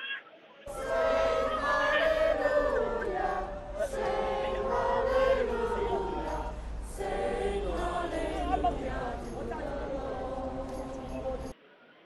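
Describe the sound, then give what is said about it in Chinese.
Crowd singing hymns from the packed stands at a prayer meeting at Southorn Playground, Hong Kong: a sustained wash of massed voices that carries steadily for about eleven seconds before cutting off. “下午1時之前修頓球場的看台已經是坐滿了與會的人士，去唱聖詩和高呼香港人加油等的口號的。那聽下當時祈禱會人士唱聖詩的現場情況。”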